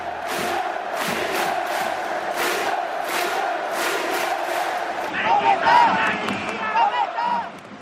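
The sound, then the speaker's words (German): Czech ice hockey fans of Bílí Tygři Liberec and HC Kometa Brno chant under an arena roof. Loud, rhythmic, regularly pulsing crowd calls ring out, and the chant shifts into a higher, more ragged pattern near the end. “Ja, sie hallen wieder laut und rhythmisch unterm Hallendach, die Anfeuerungsrufe der tschechischen Eishockey-Fans. Und die sie gerade gehört haben, waren die Sprechchöre zweier Siegerteams, Bilitiči Liberec und HC Kometa Brünn.”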